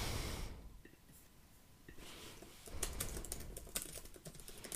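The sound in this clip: Computer keyboard typing: many quick, faint keystroke clicks in uneven bursts, sparse at first and then denser through the second half, with no voices.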